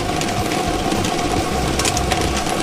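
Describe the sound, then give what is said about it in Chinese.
A lottery ball drawing machine runs for a 3D lottery draw, giving a loud, continuous mechanical whir with dense rattling and clicking from the tumbling balls. “摇奖机正式启动了”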